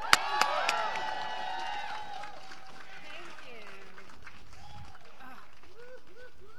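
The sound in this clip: An audience cheers and applauds to welcome a speaker to the mic, with sharp whistles and shouts at first, then a steady wash of clapping and voices that settles lower.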